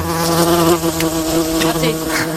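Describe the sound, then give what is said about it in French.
Loud, steady buzzing of mosquitoes, in an invasion lingering at the end of September. A continuous whining drone with rich harmonics holds throughout without pause. No voices are heard. “Raté, ils sont toujours là, les moustiques qui nous envahissent et qui continuent de nous envahir en cette fin septembre.”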